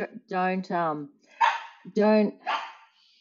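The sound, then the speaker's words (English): A dog barks at the front door, giving several loud, tonal yelping barks in quick, uneven succession with short gaps between them and no talking over them. “sorry, my dog's barking. Front door, dog barking.”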